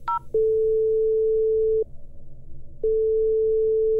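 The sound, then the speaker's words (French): Ringback tone of an outgoing telephone call: a brief higher beep, then two long, steady tones at the same pitch with a pause between them, over a faint low hum. “Je reste zen et j'appelle Marianne Cambon.”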